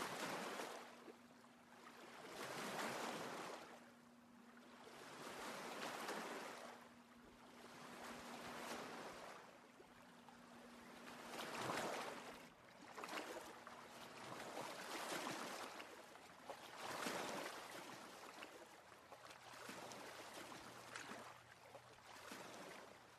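Lake waves lap in slow, repeated swells that rise and fade every few seconds, soft and steady, with no voices.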